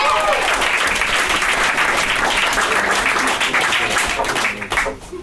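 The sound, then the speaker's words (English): A comedy-club audience applauds and cheers as a comedian is introduced, loud dense clapping that holds steady before thinning out and fading in the last second. “Give a round of applause for the very hilarious, my dear friend, Marcus Colvin!”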